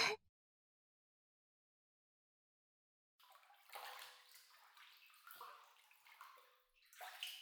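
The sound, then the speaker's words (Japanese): Hot water runs into a bathtub as a steady, fairly loud rushing and splashing that starts abruptly after about three seconds of silence, with a brief dip near the end. “お湯入れないとだな。”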